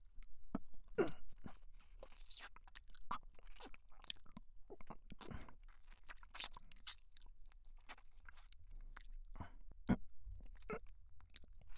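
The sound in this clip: Soft crunching, biting and chewing on an ear, heard as many irregular moist clicks, smacks and crackles that run steadily throughout with no talk.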